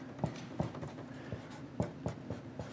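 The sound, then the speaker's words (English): A word is written on a board in short, scratchy strokes, with several sharper taps at irregular intervals, fairly quiet. “Let's write that on here, choice.”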